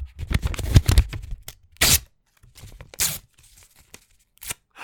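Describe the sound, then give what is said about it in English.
Paper tearing and crinkling as a wrapped present is unwrapped: a stretch of busy rustling, then a few sharp, separate rips with quiet gaps between them. “Hang on a sec. Here's a present. I'll unwrap this present. This one sounds a little bit smaller than the other ones.”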